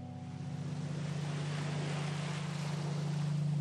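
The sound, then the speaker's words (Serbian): Soft, steady wash of the sea, with a constant low drone underneath, quiet and unchanging throughout. “A gdje bi ti išao? Na more. Tamo nikad nisam bio.”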